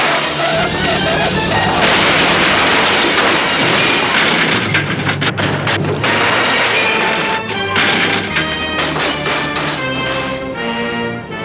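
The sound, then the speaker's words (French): A van crashes violently into a ravine with loud, chaotic smashing and heavy thuds, a long sustained din of impacts and clattering debris that stays loud throughout. “Elle se lance à sa poursuite et percute violemment la camionnette de Jasper et d'Horace. Tous les trois vont s'écraser au fond d'un ravin.”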